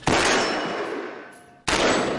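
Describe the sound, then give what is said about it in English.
Two sharp, loud gunshots from an AR-style semi-automatic rifle on a Los Angeles police gun range, each followed by a long decaying ring, spaced well over a second apart. “The Los Angeles Police Department demonstrates an AR-style semi-automatic rifle for us young on the department's gun range.”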